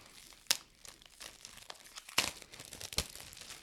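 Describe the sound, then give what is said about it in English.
Shrink wrap torn open on trading card packs: continuous crinkling plastic broken by three sharp, loud ripping tears, with no talk. “I'm going to open these both of these shrink wraps, and we'll just oscillate back and forth and open as many cards as we can.”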